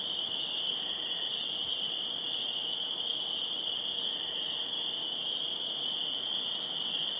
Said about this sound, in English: I thought I'd bring in the sounds of the evening a few hours earlier. In case you're wondering what the sound is, it's the sound of the night, last night, down in the woods.